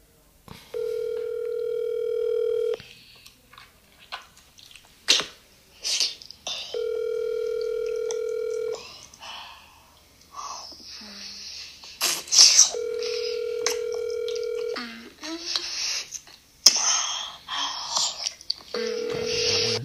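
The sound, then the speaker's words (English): Ringback tones of an outgoing telephone call on speakerphone: three long, evenly spaced, steady buzzing rings, separated by quieter stretches of handling noise and clicks. “Alright, so I'm gonna call her and what I'm gonna put on speaker, alright?”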